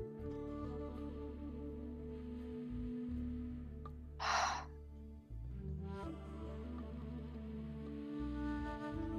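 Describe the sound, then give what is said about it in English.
A single short, breathy inhale during a slow deep-breathing exercise taking small sips of air, rising briefly over a steady low instrumental drone. “Inhaling, cleansing breaths, little sips of air, little sips, all that is needed.”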